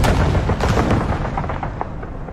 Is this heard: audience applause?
no